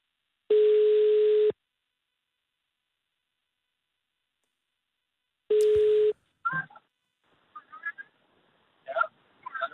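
Telephone line tone during a phone call: two loud, steady mid-pitched tones, each about a second long, separated by silence, then scattered faint crackly bursts on the line.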